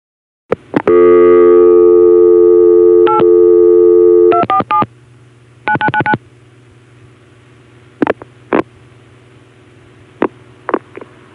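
Telephone MF signaling tones as a call passes through a distant crossbar 5 CCSA tandem to an ESS exchange: a long, loud steady tone, then quick bursts of short tone pulses, followed by a few sparse clicks.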